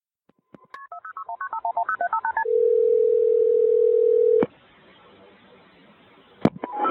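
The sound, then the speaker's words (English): Telephone keypad dialing tones for an emergency call: a rapid run of many short beeps of shifting pitch, then a long steady tone that cuts off abruptly into a low hiss, ending with a few sharp clicks. “frantically dialed 911”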